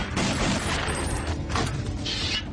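Gunfire crackles in a dense, noisy burst of many rapid shots, loud and sustained with no clear gaps between them.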